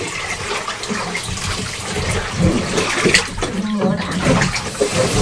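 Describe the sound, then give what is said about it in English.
Clear tap water runs in a steady rushing gush for rinsing, pouring and splashing into a bath, with uneven surges throughout. “Okay, I'll get some clear water now.”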